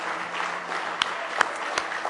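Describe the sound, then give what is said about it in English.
A church audience claps hands in praise during a Sunday morning service, a dense, steady wash of many hands applauding with a few sharper claps standing out. “Give Him a good hand clap of praise if you love Him this morning.”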